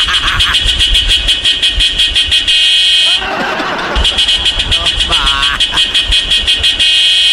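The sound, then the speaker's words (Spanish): A pickup truck's car horn honks in rapid, loud, pulsing blasts that continue almost throughout, broken briefly by a burst of rough noise in the middle. “desde las 6 de la mañana están arriba de la camioneta que ya se quieren ir tan pita y pita.”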